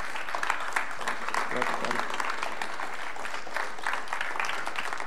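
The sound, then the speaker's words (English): A church audience applauding for Jesus during a service, sustained dense clapping at a steady level with crowd voices mixed into the ovation. “Come on, can you just give it up for Jesus for just a moment? Come on, like he's good and like he's worthy.”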